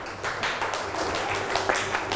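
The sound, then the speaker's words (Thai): Students in a classroom clapping for a classmate, a quick run of many sharp hand claps at a fairly steady pace, without talking. “ปรบมือให้เพื่อนหน่อยลูก”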